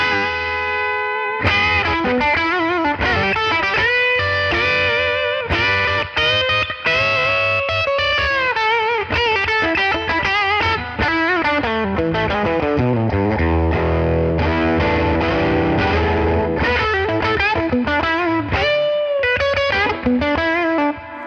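Electric guitar licks played through an overdrive drive effect: loud, gritty, sustained notes in quick runs and bends, playing continuously for about twenty seconds with no voices.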